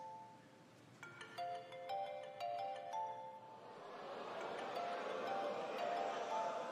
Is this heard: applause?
no